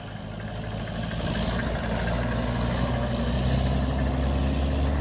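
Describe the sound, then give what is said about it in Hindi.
A tractor engine runs slowly, giving a steady, deep, throbbing rumble with layered low harmonics. It holds at an even level for the full five seconds, with no talk. “एक tractor slow है बिल्कुल।”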